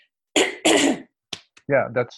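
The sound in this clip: Someone with a croaky throat clears it in two rough, raspy bursts, followed by a brief click and a short, throaty vocal sound.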